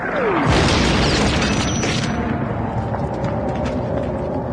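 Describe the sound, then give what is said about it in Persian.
A mortar shell explodes near an excavator, a broad, loud boom that swells early and settles into a dense, sustained roar of rumbling noise lasting several seconds. “ظاهر علی سرشو از بیل مکانیکی بیرون میاره که یه خمپاره کمی دورتر منفجر میشه”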